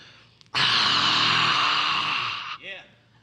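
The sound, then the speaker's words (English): A person voices a long, breathy exhale on the Hebrew letter H to imitate rushing wind: one steady, loud hiss lasting about two seconds, then a brief soft voiced trailing sound. “the letter H looks like blowing wind. It's the letter Ruha. And it means breath, wind, spirit. And it's pronounced like this.”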